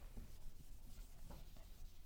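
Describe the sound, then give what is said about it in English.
Eraser rubbing across a board in a few quick back-and-forth strokes, making a faint, dry scuffing with no talk. “Okay, stop there. There's a guy. Let me erase this.”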